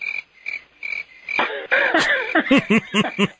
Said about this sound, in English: The crickets are out. Hear them? I do. I hear them.